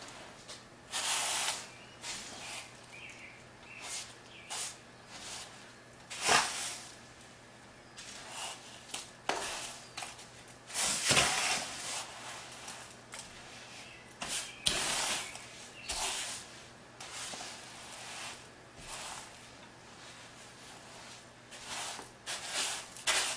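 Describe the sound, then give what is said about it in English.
Heavy whipping cream being stirred, heard as quiet, irregular scraping and swishing strokes that come in many uneven bursts, over a faint steady hum. “this is heavy whipping cream, so you just want to give it a good stir, mix it together.”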